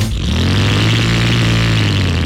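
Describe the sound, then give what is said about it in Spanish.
Suzuki motorcycle engine revving, a loud, steady, buzzing drone with a strong low growl that holds nearly constant throughout, with no talk over it. “Eres finalista de una moto espectacular de Suzuki.”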